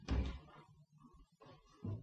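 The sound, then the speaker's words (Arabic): A tomb door is shut in a radio drama, a single heavy low thud at the very start, followed by fainter low shuffling and scraping sounds. “انا هدخل المدفن ده استخبى فيه، اما رد الباب.”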